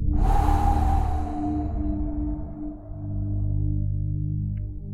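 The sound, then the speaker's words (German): A deep breath blown out through hands cupped like a funnel in front of the mouth during a breathing exercise: a breathy whoosh that swells at the start and fades over about two seconds above a steady low hum. “Einatmen. Und pusten. Direkt nochmal einatmen und pusten.”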